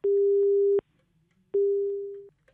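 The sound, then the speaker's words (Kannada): Busy tone from a telephone line after a dropped call: two steady mid-pitched beeps separated by a short silence, the second slightly fading toward its end. “ಕರೆ cut ಆಗಿದೆ ಅನ್ಸುತ್ತೆ.”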